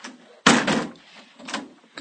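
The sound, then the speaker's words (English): A door being opened gives a sudden loud clunk and rattle, then a softer second bump about a second later, with no voices. “Let me get this door over here. Okay. Come on in.”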